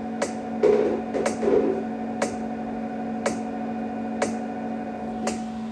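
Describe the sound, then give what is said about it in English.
A pelvic floor stimulation device gives a steady low electric hum with sharp ticks at roughly one-second intervals, and brief buzzy rattles near the start. “And every time you hear that kind of rattlesnake noise, it's contracting the muscle in my pelvic floor.”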